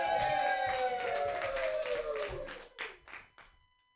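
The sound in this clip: Audience applause greets the next comedian at an open mic comedy night: dense, steady clapping that holds at full strength and then thins out and fades to quiet.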